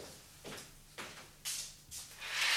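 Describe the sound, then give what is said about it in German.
A window is opened in a radio play with a few soft sliding, scraping swishes in a faint, uneven rhythm. A broader rush of noise swells at the end. “Wollen Sie die Güte haben, das Fenster da einen Augenblick zu öffnen? Dies tut Herr Brecht.”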